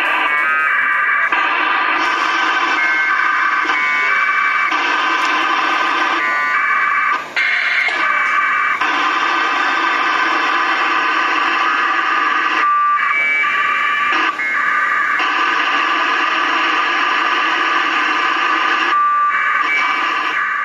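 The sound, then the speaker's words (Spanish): APRS amateur radio packet data sent on VHF at 144.800 MHz using a GPS and modem: loud, harsh warbling modem tones in long repeated bursts broken by brief gaps, continuing throughout with no voices. “Con la ayuda de un GPS, un módem y un equipo de VHF, el APRS transmite en 144-800 megaciclos esto.”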